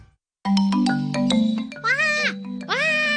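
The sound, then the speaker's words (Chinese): A person imitates the call of a black kite, giving two drawn-out, high, wavering vocal cries after a stretch of other sound. “我扮紧麻鹰叫啊，我谂住引佢哋飞埋嚟，等我可以睇清楚啲啊嘛”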